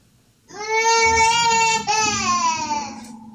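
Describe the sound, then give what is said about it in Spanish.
A baby cries loudly in two long, sustained wails, the first breaking off briefly before the second continues. Both are high, strongly tonal and strained, with no talk over them. “Dele comer al bebé, hola. Uy, ahí es cuando no le pegue al niño. Uno oye eso y dice, ay, no quiero tener hijos.”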